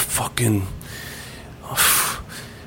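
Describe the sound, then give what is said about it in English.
A man's voice imitates heavy breathing with a few loud, forceful gasping and snorting breaths in short bursts. “this guy was like breathing heavy”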